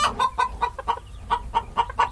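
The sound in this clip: Ornamental hens clucking in a city-centre breeding flock: a quick, steady run of many short, mid-pitched clucks, fairly loud, with no talk.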